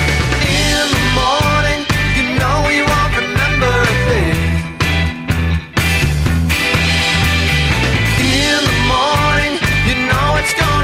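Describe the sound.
An indie rock band track plays loud and continuous, with driving drums, a heavy bass line, layered guitars and sung vocals, dipping briefly around the five- and six-second marks before resuming at full strength.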